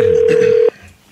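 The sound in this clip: Ringback tone of an outgoing telephone call: one loud, steady, single-pitched tone holds for most of a second and then cuts off, leaving faint line noise.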